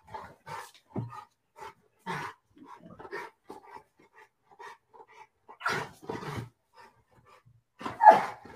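A dog barks and pants in a series of short, sharp barks separated by brief pauses, the loudest burst coming near the end, with no talking.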